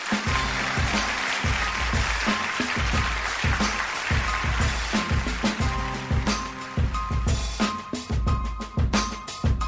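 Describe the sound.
Audience applause for a commencement speaker: continuous dense clapping over a steady thumping rhythmic beat, loud and sustained throughout with no break.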